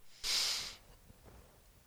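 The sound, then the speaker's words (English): A person inhales deeply through the nose during a breathing exercise: one loud, airy draw lasting about half a second, then quiet. “Now inhale.”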